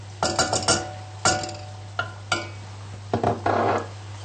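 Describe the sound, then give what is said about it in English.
Sharp clinks and scrapes of a utensil against a pan as margarine goes in for a cheese sauce, coming in an irregular series of short bright hits with brief pauses and a longer scrape near the end. “And now for the cheese sauce, I'm going to put the remaining of my margarine.”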